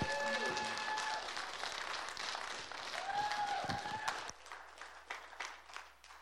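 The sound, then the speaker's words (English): An audience at a church service applauds to welcome a speaker: a dense burst of clapping that abruptly thins into scattered, lighter claps near the end. “So if you guys can put your hands together and welcome Miss Jane this morning.”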